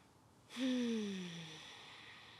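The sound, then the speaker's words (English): A single deep breath drawn in during a guided breathing and affirmation exercise begins after a brief quiet moment, swells quickly, then fades slowly over about two seconds, with a low voiced tone that sinks gently in pitch. “Just take a deep breath in and let that settle into your bones.”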